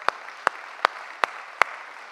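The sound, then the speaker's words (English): Sharp hand claps come from a church audience welcoming a guest: five crisp, evenly spaced claps stand out in a slow, regular rhythm over a low, steady background hiss. “But yeah, give it up for our guest, church.”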